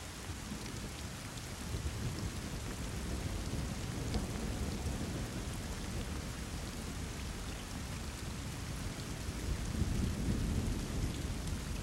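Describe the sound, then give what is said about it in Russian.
Heavy rain pours down in a dense, steady hiss that stays loud throughout and swells slightly near the end. “Начался сильный ливень.”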